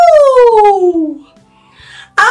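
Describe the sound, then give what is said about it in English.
A person imitates a dog howling as a voice warm-up for a children's music activity: one loud, long howl that slides steadily downward in pitch, then a short sharp vocal burst at the end. “And we can have doggies who are howling. And the howling doggies are actually going to warm up their voices.”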